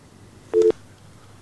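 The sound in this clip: A telephone busy tone after a dropped call: one short, steady, mid-pitched electronic beep lasting about a fifth of a second, with near-silence before and after.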